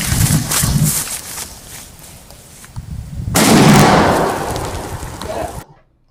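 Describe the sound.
A homemade firecracker bomb explodes in a sudden loud blast that roars and crackles for a couple of seconds before cutting off abruptly. Before it comes a quieter stretch of hiss and low rumble.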